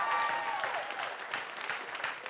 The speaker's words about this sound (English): Come on, give the Lord a hand clap of praise.